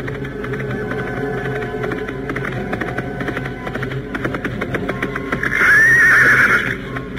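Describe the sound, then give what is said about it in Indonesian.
A horse being ridden hard lets out one loud, drawn-out whinny near the end, heard over a steady, busy rumble of movement. “Beberapa saat mereka memacu kuda dengan tanpa berhenti.”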